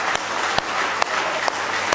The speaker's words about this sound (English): Now let's give the King of Kings a good hand clap of praise if you love him with all your heart this morning.